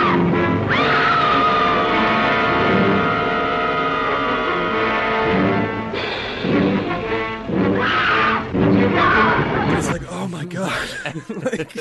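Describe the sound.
A voice imitates the piercing scream of a woman in a film, a long, high, sustained cry held for several seconds, followed by talk and chuckling.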